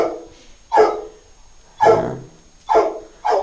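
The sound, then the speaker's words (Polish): An old dog, twelve years of age, barks four times in a loud, evenly spaced series of sharp single barks, with a low rumble between them and no talk. “To jest ten pies? Tak, ten ze Zgierza.”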